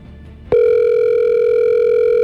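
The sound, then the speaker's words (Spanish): A telephone line tone on a call that is being held open. After a moment of low background noise, one steady, loud tone starts abruptly and holds unbroken to the end, with no voices. “Voy a bajar sonar hasta el fondo para que vean que yo no cuelgo ni nada.”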